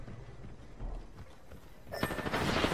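Gunfire in the video game Apex Legends during a solo ranked match, faint at first, then a quick burst of rapid automatic shots near the end.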